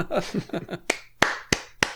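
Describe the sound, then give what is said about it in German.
Four sharp, evenly spaced hand claps come after a brief stretch of voice, a small burst of applause standing out crisply against quiet. “Und jetzt möchte ich Applaus haben.”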